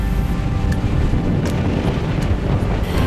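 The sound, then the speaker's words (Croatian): Strong wind blowing at sea aboard a ship sailing toward Crete through rising waves: a dense, constant roar with heavy low rumble and wind buffeting the microphone. “Vjetar se raspuhao.”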